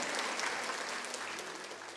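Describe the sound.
Applause from a church audience clapping in praise during a Sunday morning sermon service: dense, steady clapping that fills the whole two seconds and stays at an even level.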